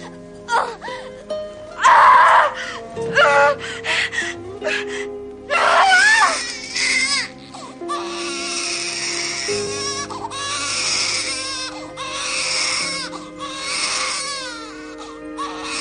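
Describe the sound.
Newborn baby crying right after birth, loud wailing bursts that rise and break off repeatedly, then turn into a more continuous, wavering cry over low sustained background tones.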